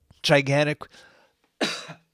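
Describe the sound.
Rough throat clearing and coughing, a few loud, gravelly bursts: a voiced rasp first, then a brief pause and a breathy cough near the end.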